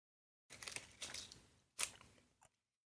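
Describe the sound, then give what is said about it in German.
Biting into a soft rice sweet filled with red bean paste: a few faint, crunchy bursts of bite and chew noise separated by short pauses, with no talk over them. “Das, das Weiße ist einfach nur Reis und das andere ist so eine rote Bohnenpaste. Das schmeckt echt lecker. Ich beiß jetzt rein.”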